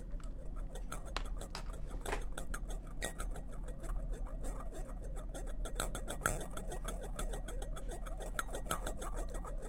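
Metal bowls rattling, giving a continuous, dense stream of small clinks, scrapes and ticks at fairly low volume.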